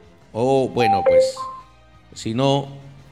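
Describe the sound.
A telephone rings briefly on a radio call-in line, two short electronic tones at steady pitch, the second slightly higher, sounding between stretches of a voice talking.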